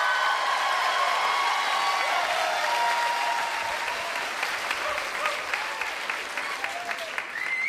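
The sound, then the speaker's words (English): Rapturous applause from a live show audience welcoming an author onto the stage: dense, loud, sustained clapping that holds steady throughout and eases only slightly toward the end. “That uh, rapturous uh, reception you got coming out.”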